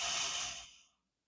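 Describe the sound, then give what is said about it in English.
A single breath drawn in through the nose during a guided breathing exercise: a soft, airy hiss that holds briefly, then fades away to silence within about a second, with no talking. “And exhale through the mouth. And inhale through the nose.”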